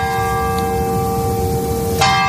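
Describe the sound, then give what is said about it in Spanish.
A village church clock bell chimes the hour. A loud sustained ringing tone with layered overtones hangs and slowly decays before a fresh strike lands near the end, with no voices. “El reloj de la iglesia marca puntual todas las horas del día y resulta que esto molesta a algunos turistas.”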